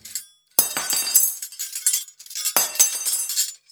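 Glass or dishes shatter in a home during a comedy sketch, with two sharp crashes about two seconds apart, each followed by a spill of bright tinkling and clinking debris. No voices are heard.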